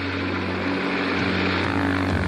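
A propeller plane's engine drones as it struggles on a lean fuel mixture while flying over the Rocky Mountains. The low, steady hum wavers slightly in pitch, and no one speaks.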